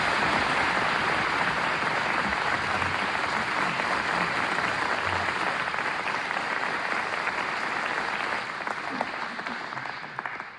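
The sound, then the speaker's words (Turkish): A studio audience applauds at a Turkish folk music radio concert in Istanbul Radio's Mesut Cemil Studio, sustained dense clapping from many hands that stays loud and steady, then thins and tapers in the last couple of seconds. “Daha programın başında türkülerimize geçmeden bu kadar güzel alkışladığınız için gönülden”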